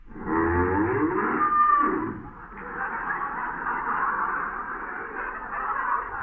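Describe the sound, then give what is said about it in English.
A cow moos after being punched like a punching bag in a barn, giving long, loud, drawn-out lowing calls separated by a brief dip. “I hate hitting a cow like that.”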